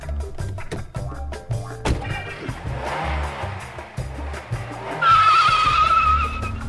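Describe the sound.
A 2003 Vauxhall five-door all-wheel-drive hatchback is driven, with uneven engine and tyre noise and a sustained high squeal in the last couple of seconds.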